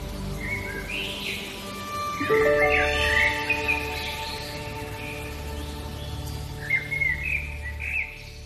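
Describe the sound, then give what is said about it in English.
High-pitched chirps of a robin at dawn, a few short bright calls rising above a steady, faint background, with a busier cluster near the start and more scattered notes toward the end. “So that high-pitched chirp is a robin.”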